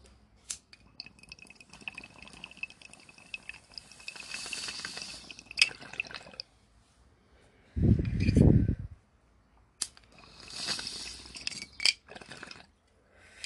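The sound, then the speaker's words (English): Water bubbling through a bong's percolator during a hit, a low gurgling burst about a second long, set among scattered glass clinks and a soft hiss. “But let's take this bong rip before we start.”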